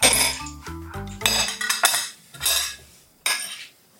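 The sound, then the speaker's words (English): A spoon scoops cooked white rice into several bowls, making clinks and scrapes of metal on dishware in short bursts. No one speaks. “spoon to add 2 tablespoons of cooked white rice to each of your bowls.”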